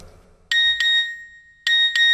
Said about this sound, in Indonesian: SMS masuk.